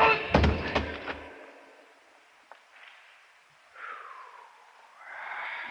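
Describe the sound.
A rock about the size of a baseball strikes a man's head, heard as a few dull thuds at the start, followed by faint rustles and breathy sounds in a quiet scene.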